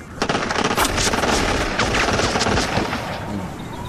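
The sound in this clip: Soldiers fire rifles on command in loud, rapid volleys of many shots that run almost continuously for a few seconds.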